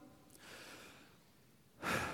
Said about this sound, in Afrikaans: Haal gediep asem.